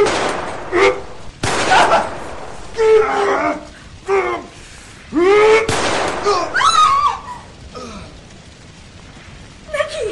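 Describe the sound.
Gunshot in a radio drama: a sharp, sudden crack bursts out amid tense, overlapping dramatic voices, with the dialogue continuing around it.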